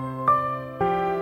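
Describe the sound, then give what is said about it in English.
Launch chime of the Verbum Library software starting up: two bright, sustained electronic tones, the second entering about half a second after the first. Both notes ring out clearly and evenly, with no talking. “That's the sound of the Verbum Library launching up.”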